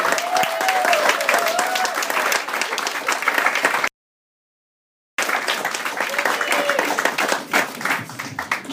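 Audience applause at a live stage show, a steady, dense wash of clapping hands from a crowd that cuts off abruptly into a short silence, then resumes at the same full level.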